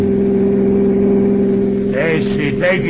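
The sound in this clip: A car's engine drones steadily on mountain roads, an even mid-pitched hum that holds throughout, with voices talking over it during the final second.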